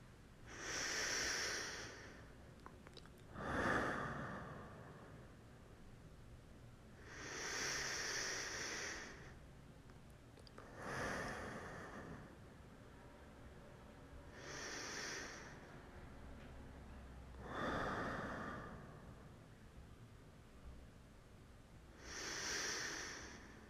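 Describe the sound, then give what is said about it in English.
A person breathes deeply and repeatedly, a series of slow, breathy inhales and exhales that come in evenly spaced waves of airy hiss and rise and fall in loudness, with no talking. “It says, breathe deeply 10 times in a row. Okay, so here we go.”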